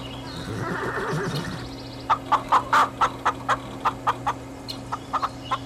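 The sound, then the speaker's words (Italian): Chickens clucking in a quick, uneven run of sharp, mid-pitched clucks, loud and clear, coming after a short stretch of denser, steadier sound at the start. “Ma che è un pollaio?”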